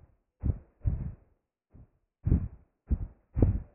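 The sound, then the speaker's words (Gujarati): Heartbeat heard as six dull, low thumps in an uneven rhythm, some close together like paired beats, with silence between them and no voices. “અત્યારે ધબકાર સંભળાય છે”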